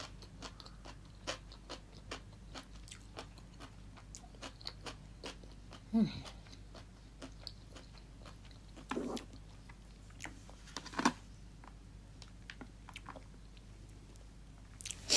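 Chewing and crunching of daikon radish eaten between bites of a meal: many short, crisp bites and wet mouth clicks in an irregular rhythm, mostly faint, with a few louder crunches standing out.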